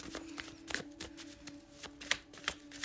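Tarot cards being shuffled, heard as faint crisp riffling taps in a few short bursts over a low, steady hum.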